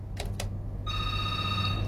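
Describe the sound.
Ringback tone of an outgoing telephone call that goes unanswered. A couple of brief bursts are followed by a steady, sustained ringing tone with no voices.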